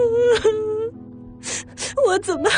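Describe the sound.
A person crying in wavering, voiced whimpers: one drawn-out moaning sob, a brief lull, then several shorter sobbing bursts with bending pitch.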